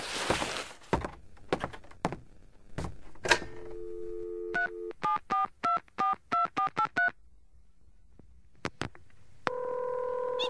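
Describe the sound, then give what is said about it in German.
A telephone is dialed to call a taxi. Clunky handset knocks come first, then a long tone and a quick run of many touch-tone keypad beeps, ending in a steady line tone. “Dürfte ich uns von Ihrem Telefon aus noch ein Taxi rufen? Na gut. Mein Telefon ist hier.”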